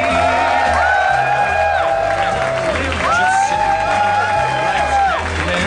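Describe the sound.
A live comedy-show crowd cheers and applauds loudly as the host is welcomed to the stage. Sustained whoops ride over continuous clapping and crowd roar.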